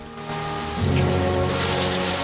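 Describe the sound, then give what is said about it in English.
Rain pouring down at night, a dense steady hiss that grows slightly louder after the first second and then holds, with low sustained tones running underneath. “At night, in the rain, the marker on Funangaro shows 10 feet.”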